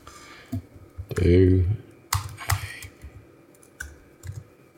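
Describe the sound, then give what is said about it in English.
Typing a Google search on a computer keyboard: a few soft key clicks and taps, scattered under people talking. “So, go to Google and type in do a barrel roll. Do a barrel roll and then just hit enter.”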